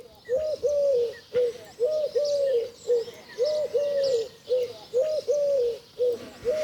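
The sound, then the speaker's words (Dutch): A Eurasian collared dove coos in repeated soft, hollow, mid-pitched phrases. They come in a steady, regular rhythm and stand alone without talk. “U hoort hier een Turkse tortel. Het lijkt wel een Leidse vogel. De Turkse tortel.”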